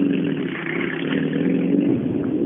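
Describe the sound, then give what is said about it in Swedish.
Engine noise from a car on a timed rally stage, a steady mid-pitched droning roar with some clatter that runs continuously at an even level. “Där kommer en bil”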